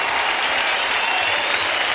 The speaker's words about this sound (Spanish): Oh, exáltale con tu aplauso.